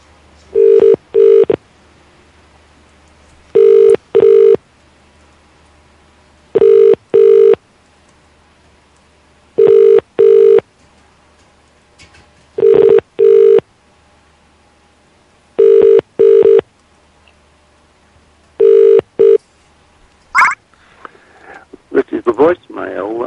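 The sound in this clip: Telephone ringing on an outgoing call to a local number: seven evenly spaced double rings, each a pair of short mid-pitched buzzes, followed by a click and a brief burst of rustling noise at the end.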